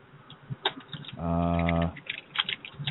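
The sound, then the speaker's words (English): Rapid, irregular clicking of typing on a computer keyboard runs throughout. A steady buzzing tone briefly sounds over the keystrokes midway. “Who's doing the Barrett Brown impersonation with the typing?”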